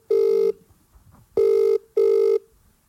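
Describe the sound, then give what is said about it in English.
Ringback tone of an outgoing phone call being placed: three steady, buzzy mid-pitched tone bursts of about half a second each, separated by silent gaps, with no talk over them. “Should I give her a call now? We'll give her a call now.”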